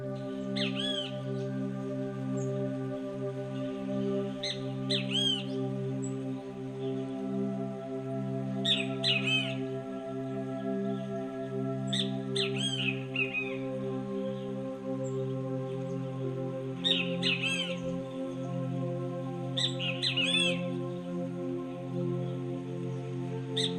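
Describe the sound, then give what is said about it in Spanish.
Great kiskadee song: bursts of sharp, bright, quickly repeated call notes recur several times over a steady low droning hum. “El canto de esta ave probablemente suene menos favorecedor que su hermosa apariencia.”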